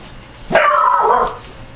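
A dog gives a single bark, a loud, drawn-out yelping woof lasting under a second, alone over quiet background.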